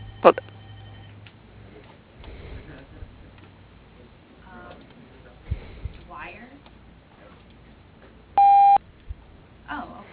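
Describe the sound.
A telephone call rings through to voicemail, with faint voices and small clicks, then one loud electronic beep near the end.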